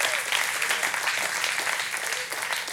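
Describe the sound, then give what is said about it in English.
Applause from a church audience during a Sunday sermon, a dense, steady wash of many hands clapping that holds evenly throughout without a break. “I'm glad y'all are clapping now.”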